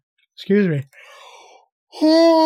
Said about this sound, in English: audibly yawn so you can hear me yawning